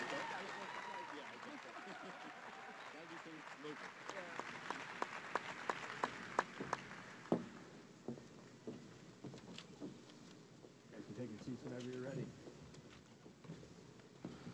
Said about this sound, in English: I'm supposed to ask you to make some noise and put your hands together, but you're already doing that as we officially welcome PWHL San Jose to the Bay Area.